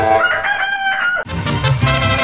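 A fighting rooster crows loudly with a long, strained, harmonic call. It breaks straight into a second, rougher and noisier crow.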